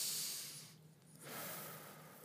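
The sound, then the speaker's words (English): A group of people breathes deeply together on cue, with one long airy inhale, a brief quiet pause, then an equally long, soft exhale. The breathing is faint and hissing. “Let's all just take a deep breath and breathe out. Breathe in, breathe out.”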